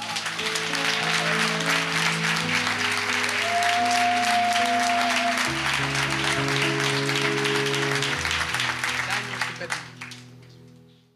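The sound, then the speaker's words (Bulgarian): Congregation applause in a church: loud, dense clapping held steadily for about ten seconds over sustained musical tones, then fading away at the end. “Трябваше да ръкопляскате тук.”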